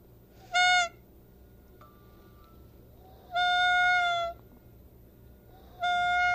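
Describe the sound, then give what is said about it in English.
A shiny noisemaker toy blares three loud, nasal, wailing honks that imitate a peacock's call, each a steady, buzzy tone separated by quiet pauses. “Now here's a shiny one. And this one's a peacock. This one sounds like a peacock. Now listen.”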